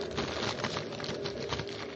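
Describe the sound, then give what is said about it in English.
Dense crinkly rustling as a wrapped cigarette case, a converted old money wallet, is taken from a pocket and unwrapped. A steady crackling texture continues throughout with small fluctuations and no voices. “which has now been converted to a cigarette case. Oh, very interesting. Have you got it on you? Yes, of course. It's wrapped up. But I can unwrap it. It's in my pocket. Here it is.”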